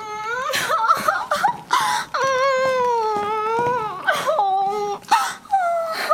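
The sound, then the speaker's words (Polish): A woman cries theatrically in a comedic Jewish-theatre scene from Łódź: long, high, wavering wails and sobs, loud and alone, broken by several short catching breaths. “dziecko, czego ty znowu płaczesz?”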